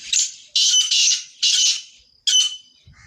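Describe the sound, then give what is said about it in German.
Harsh, rasping calls of a grey partridge, a pigeon-sized gamebird, come in a quick series of loud, grating bursts separated by short gaps, with no other sounds. “das Rebhuhn. Seinen Ruf zu hören ist eine absolute Seltenheit, denn es gibt nicht mehr viele Rebhühner.”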